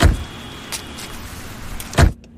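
A car pulling over and stopping: a low, steady engine rumble broken by a few short thumps, the last one the loudest, before the sound cuts out.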